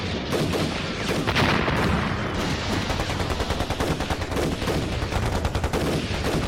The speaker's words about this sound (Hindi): एक मिनट भी machine gun रुकनी नहीं चाहिए